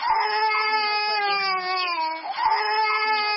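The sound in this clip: An infant wails inside the Catholic church of Obili in Yaoundé, a high, sustained and strained cry that holds for about two seconds before a fresh wail begins near the end.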